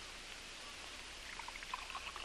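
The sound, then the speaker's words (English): Faint pouring of a stiff drink: soft liquid trickles and a few small glugs, clearest toward the end, over a low steady hiss, with no voices. “Now then, pour yourself a good stiff drink. It'll blaze you up. You need it.”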